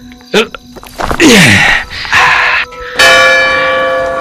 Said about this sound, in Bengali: সেয়া পুলিচ ৰিজাৰ্ভৰ চন্তৰীয়ে ঘণ্টাত একোপ মাৰিলে এটা বাজিছে